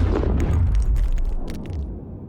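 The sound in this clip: Two science-fiction blasters fire in the same instant, giving one deep booming blast with a heavy rumbling low end and crackling bright sparks that die away over about two seconds.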